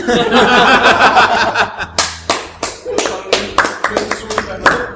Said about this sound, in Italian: cosa applaudite?